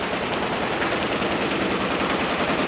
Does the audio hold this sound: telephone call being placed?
no